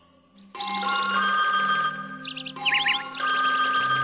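A telephone rings as a call is placed. A loud electronic ringtone starts abruptly and plays continuously, with bright warbling trill patterns over a steady tone that shifts pitch partway through.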